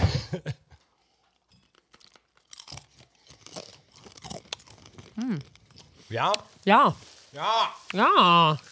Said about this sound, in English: I mean, it was the one time we're allowed to eat on microphone. I mean, this is why we don't do it. I mean, honestly, you don't taste a whole lot.